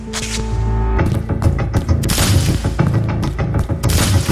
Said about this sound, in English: The first bullet hits me in the chest, sends me staggering back a step.